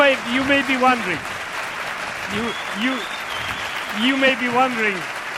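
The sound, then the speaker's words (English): Hand clapping by a presenter before a group, heard beneath voices that rise and fall in short bursts throughout, at a moderate level that swells in two clusters. “you may be wondering why I'm clapping.”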